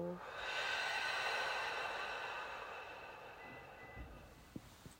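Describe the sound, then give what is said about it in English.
A group taking slow, deep breaths in together through the nose and letting them out through the mouth, heard as a soft airy whoosh that swells and then gradually fades, with a few faint clicks near the end. “Deep inhale through the nose. Brief hold at the top. Exhale, release through the mouth. Let it go.”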